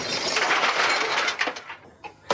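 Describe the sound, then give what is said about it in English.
Shattering crash of a TV screen smashed for a sound-effects recording: a dense, bright burst of breaking and rattling that runs over a second, then scattered fragments settle, with a final sharp impact at the end. “smashing TV screens and things like that. TV smash. Take one. One, two, three, four.”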